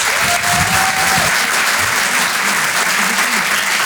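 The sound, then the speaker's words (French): Loud, steady audience applause at a live comedy show, a dense, unbroken patter of many hands throughout, with faint voices beneath it. “Faites du bruit pour Adèle Fugazi.”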